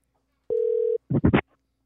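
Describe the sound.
A telephone call being placed, with a single steady mid-pitched ringing tone about half a second long, followed by three quick, rougher bursts of sound.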